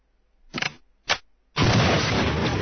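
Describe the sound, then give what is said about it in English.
Gunshot sound effects aimed at an old coffee pot that won't start: two short, sharp bursts a moment apart, then a louder, sustained blast of noise that carries on to the end. “Guess we had to shoot the old coffee pot.”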